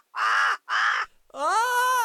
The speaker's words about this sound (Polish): Ale co to? Wrona? Skrzydłami bije?